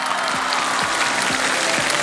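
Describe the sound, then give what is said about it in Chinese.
Steady, thick applause from an audience at an acrobatics show, a constant wash of clapping with a regular beat of low, dropping thumps underneath. “战斗开始，谢谢掌声。”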